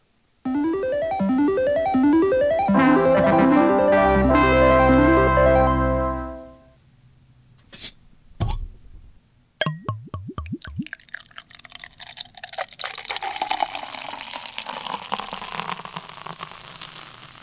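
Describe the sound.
A transition sound effect opens with a loud cascade of rapid, ringing electronic tones that fades out after about six seconds. Sharp clicks and a few pops follow, then a steady crackling, dripping fizz like rain that grows denser toward the end.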